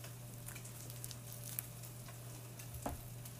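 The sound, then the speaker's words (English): Spam frying in a pan gives a soft, steady sizzle with a few sharper crackles and pops, heard alone and fairly faint. “Spam is cooking.”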